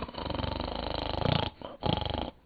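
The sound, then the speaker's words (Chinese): A sleeping man's loud, raspy snoring, rattling and growl-like in texture, comes in two long snores separated by a brief pause. “老孟高大的身躯曲卷着，也打上呼噜。”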